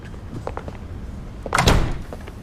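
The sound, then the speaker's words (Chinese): A door being shut lands as one firm, heavy thud after a few faint knocks and rattles, then the sound fades back to quiet, with no talking. “把门关上。”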